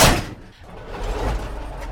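The door of a blue vintage Tatra car swings shut with a single firm thud at the very start, followed by a low, steady rumbling noise.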